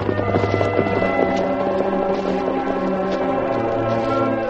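Horses being ridden and then reined in at the foot of a hill: steady hooves clip-clop without a break under a dense, continuous background of sound.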